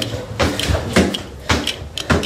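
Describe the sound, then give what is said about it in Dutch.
Work on installing an air conditioner's indoor unit in a house hallway: several sharp clunks and scraping knocks at irregular intervals, with softer rustling in between. “Wat bent u aan het doen? Ja, ik ben een binnenunit van een airco aan het monteren.”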